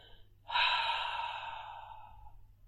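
A single slow exhale during a breathing exercise: a soft, airy breath that starts abruptly and then gradually fades over about two seconds.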